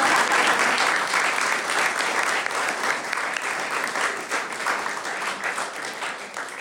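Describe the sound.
Audience applauding to welcome an artist at the opening of a solo exhibition in a gallery, dense, steady clapping that holds throughout and eases slightly toward the end.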